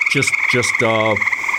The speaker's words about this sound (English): when I hear the tree frogs going. This is, by the way, is not peak when I recorded this compared to how intense it can be.